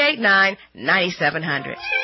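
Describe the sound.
A cat meows a few times in drawn-out, tonal cries of moderate loudness, one rising then falling, with short pauses between them.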